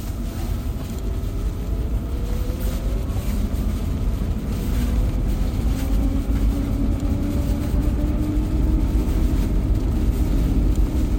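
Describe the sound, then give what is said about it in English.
A car drifts on an ice circle of polished ice ringed by groomed icy snow, its drivetrain set to 70% rear torque; a loud, continuous engine drone holds throughout, with its tone slowly climbing and no voices. “A little drift going. Trying to stay out of the ice. So you guys don't know, but there's the inside of the circle is polished ice,”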